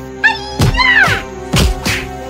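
Men being knocked to the ground in a fight: a few heavy thuds and thwacks in quick succession, mixed with short vocal cries and grunts of effort.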